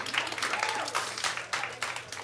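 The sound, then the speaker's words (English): Congregation applauding during a middle-school church service: a fairly quiet patter of scattered hand claps with an uneven, fluttering rhythm, lasting only a couple of seconds. “Yeah, we can applaud for Armando.”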